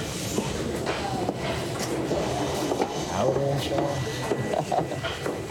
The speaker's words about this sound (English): So effectively here we start printing the tickets and applying the packaging, whether it be a foot transfer with a heat stamp or whether it be just printing the actual tickets out.